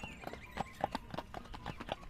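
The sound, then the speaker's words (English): A merry gray pony's hooves clip-clop along a smooth pike road in a quick, steady rhythm of many light hoofbeats. “he was a very merry gray pony, and he loved to go clippity-clippity-clop.”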